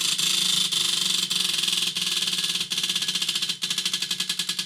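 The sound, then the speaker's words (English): A spinning prize wheel clicks in a rapid, steady stream of ticks. Sharper clacks recur throughout, spaced farther apart as the wheel gradually slows. “Spin that wheel for me.”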